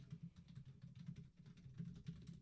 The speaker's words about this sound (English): Me furiously typing Mystery Spot, the Supernatural episode